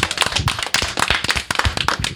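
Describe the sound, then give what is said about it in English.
Audience applause at a panel event: dense, loud clapping from many hands, steady throughout with no voices. “let's have some applause for our lovely audience tonight”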